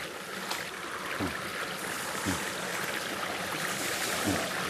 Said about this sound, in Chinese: 山林间有着很多小溪和清泉。